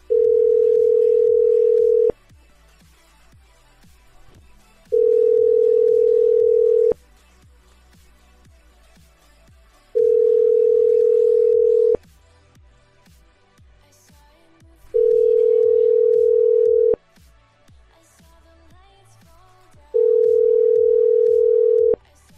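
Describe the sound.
A telephone tone sounds after a number is dialled. Five steady beeps, each about two seconds long, are separated by regular gaps of about three seconds over a faint background.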